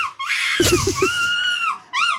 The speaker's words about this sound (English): There we go, that is somebody screaming like a seagull.